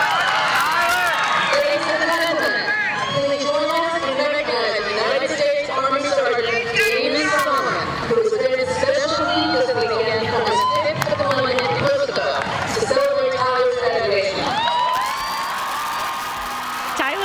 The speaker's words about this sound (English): They hugged for a really long time while the crowd went crazy and gave them a standing